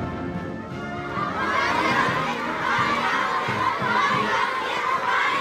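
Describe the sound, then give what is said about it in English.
Dozens of children chant a welcome at a state welcome ceremony for a visiting US president while waving American and Chinese flags and artificial flowers. A loud, dense mass of high young voices shouts and cheers steadily throughout. “Dozens of children welcoming President Trump, chanting a welcome while holding artificial flowers and American and Chinese flags.”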